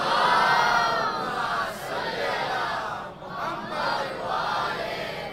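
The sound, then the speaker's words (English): A large crowd loudly recites salawat in honour of the Prophet Muhammad and his family at a religious gathering. The voices chant together in a dense, sustained roar that dips briefly midway before swelling again. “As much as you love Ali, you have to do a loud salawat. Sallu ala Muhammad wa Ali Muhammad.”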